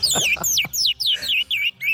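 A pet bird sings a quick series of bright, clear whistled notes, many sliding downward in pitch, loud and alone, with short gaps between phrases.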